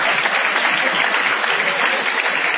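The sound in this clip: Audience applause forms an even, fairly loud wash of clapping that holds steady across the whole clip, with no separate claps standing out.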